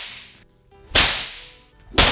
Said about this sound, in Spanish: voy a darme unos azotes, por favor, unos latigazos para que te sientas un poco más tranquila.